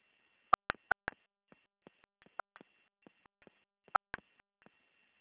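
Telephone keypad tones as a caller enters a protocol or CPF number on an automated Santander customer service line: many short, bright beeps in quick irregular bursts, with no talk.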